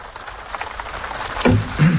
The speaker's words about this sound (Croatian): Vražija kiša.